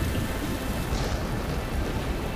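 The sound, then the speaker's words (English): Heavy rain pours down as the clouds burst, a dense, steady hiss with a low rumbling undertone that holds evenly throughout. “The skies become heavy with moisture... ...until the clouds burst.”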